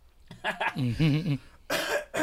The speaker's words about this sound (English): I'm actually sorry, got a something in my throat here.